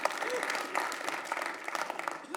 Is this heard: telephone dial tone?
no

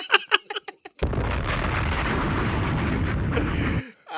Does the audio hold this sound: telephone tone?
no

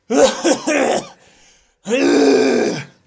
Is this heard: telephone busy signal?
no

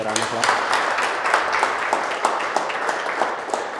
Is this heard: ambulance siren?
no

